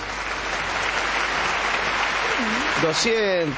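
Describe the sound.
Continuous clapping comes from a live radio studio audience of about 240 people. The applause stays steady throughout, and a voice speaks over it near the end.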